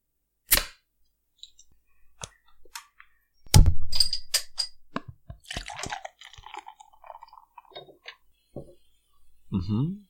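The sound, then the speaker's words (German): A bottle of very pale pure malt lager is opened: a few sharp clicks and one louder popping burst with brief rustle, followed by people talking. “dann sage ich, wir öffnen mal die Flasche.”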